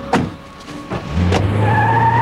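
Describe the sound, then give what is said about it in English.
A car driving away: a few brief knocks, then a steady, moderately loud engine drone that continues to the end. “The men put Porter in a car. And Pearl watches them drive away.”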